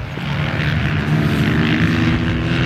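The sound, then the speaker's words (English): Dirt bike engines race on ice on Lake Winona, producing a loud, continuous droning buzz that holds steady without pauses throughout. “That is, a love of dirt bikes and a need for speed on the ice. Today, we've got part two of our conversation with the riders of the ice bikes, a conversation that started with this sound.”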